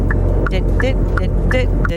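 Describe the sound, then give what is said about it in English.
A Citroen car engine running, a steady low hum with short higher pulsing tones repeating over it. “What car is it? That is a Citroen.”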